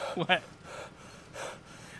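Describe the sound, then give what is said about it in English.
A video game character's breathing stuck in a loop: one short voiced gasp is followed by a few soft breaths that repeat at a steady pace. “if you go in the menu while the breath's playing, it's stuck. It's looping. It's stuck.”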